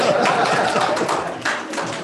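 An audience claps in a short, dense burst of applause that stays fairly even and tapers slightly toward the end.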